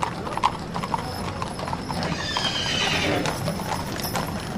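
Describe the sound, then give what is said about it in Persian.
Horse hooves clattering as mounted officers ride about in all directions, a busy continuous clip-clop with a horse whinnying among the hoofbeats. “ناگهان از صدای سم ها بیدار شدیم دیدیم مامورها سوار اسب شده اند و به هر طرف تاخت و تاز می کنند”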